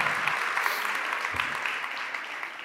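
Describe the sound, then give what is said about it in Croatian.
Audience applause: steady, dense clapping from many hands that stays loud and continuous for the whole clip, with no pause or fade. “Dajmo jedan aplauz.”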